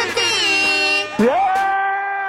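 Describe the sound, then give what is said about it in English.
Loud air horn blares sound as a celebratory effect for a prize winner: two long, sustained brassy blasts back to back. The second opens with a quick upward pitch swoop before holding steady. “Yes, that's air horns for the Lord, baby.”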